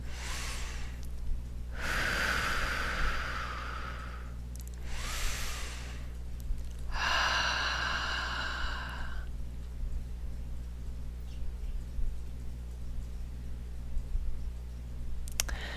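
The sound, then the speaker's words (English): Deep breathing during a guided meditation, drawn in through the nose and let out through the mouth: a few long, soft, airy breaths rise and fade with quiet gaps between them over a steady low hum, with no talking. “Closing your eyes, nice deep breaths. In through the nose and out through the mouth.”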